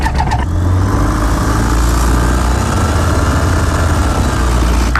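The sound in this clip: Light aircraft engine starting up before a flight: a brief clatter as it catches, then a loud, rough, low droning rumble that runs steadily throughout, with no talk.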